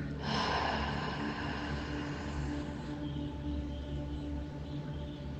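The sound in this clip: A slow, deep exhale during a breathing meditation for anxiety and chest tightness: a steady, soft rush of breath that holds an even level for several seconds, with a low hum underneath.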